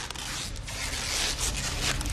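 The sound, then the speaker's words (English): Brown packing tape pulled and wrapped around a person's limbs, a loud, continuous sticky ripping and rasping that runs the whole time with uneven surges. “The neighbors wrap the Sandin's limbs in brown packing tape.”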